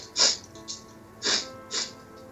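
Sharp nasal sniffs of air, four breathy bursts spaced in two pairs, the first and third the loudest, with no talking over them.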